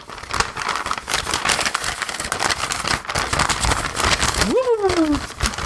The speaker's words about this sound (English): Well, no, actually, you know, there's one more letter here.